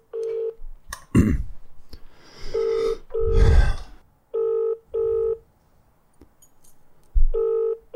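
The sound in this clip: Ringback tone on an outgoing telephone call: a single ring, then repeated double rings in a steady pattern, with breathy noises between them.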